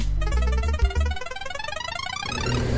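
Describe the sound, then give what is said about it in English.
Game-show prize wheel spin rendered as a loud electronic effect: a rapid cascade of bright chiming tones over a fast, steady ticking pulse, heard alone without talk. “All right, let's go ahead and push that button. The insurance is paid up. Let's go ahead and take a spin on the wheel.”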